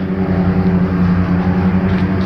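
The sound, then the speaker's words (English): Riding lawn mowers run behind a brick wall, making a loud, steady, low engine drone with a constant rumbling hum and no breaks, and no voices over it. “that background sound is riding mowers on the other side of this brick wall here.”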